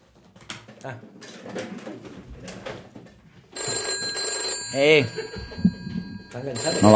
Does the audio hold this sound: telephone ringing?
yes